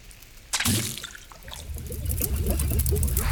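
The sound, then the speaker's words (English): Mixed potion ingredients, shaken together in a separate bowl, are dumped into another bowl with a sudden splashing onset. A continuous wet trickle and gurgle follows and grows slightly louder toward the end. “just gather all the ingredients in another bowl, shake them up, and dump them in.”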